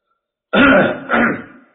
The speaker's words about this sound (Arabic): كحة الشيخ هذه زينت